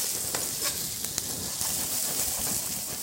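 Potatoes and onions frying in a pan for fried potatoes, a steady loud hiss of sizzling oil dotted with small crackles and pops throughout.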